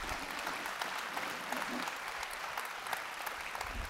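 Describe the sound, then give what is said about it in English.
A church audience applauds, welcoming two guests onto the stage. Dense, steady clapping holds at an even level throughout, with no voices over it. “So Summit family, all of our campuses, would you put your hands together and welcome Lori Francis and Alex Akinsola up here with me.”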